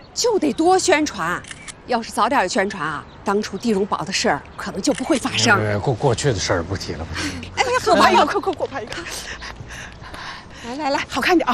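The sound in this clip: A camera shutter clicks as two people pose for a photo together, short sharp clicks sitting under continuous conversation in Chinese.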